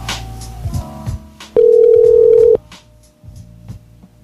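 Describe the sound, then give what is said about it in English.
Telephone tone as a call is placed back: a single steady, mid-pitched tone lasting about a second, with faint low muffled sounds before and after it. “Call him back. Complain.”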